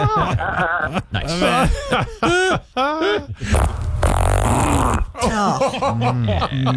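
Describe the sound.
A long, buzzy fart sounds in the middle, set between bursts of chuckling and snickering laughter from several people, with voices before and after.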